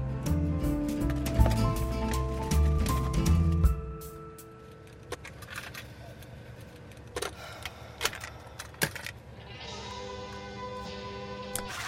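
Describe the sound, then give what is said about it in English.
A few sharp mechanical clicks and clunks as a cassette tape is pushed into the dashboard player of a red Mini Cooper, after a louder rumbling stretch at the start. “takes out the cassette tape, and inserts it into a dashboard player.”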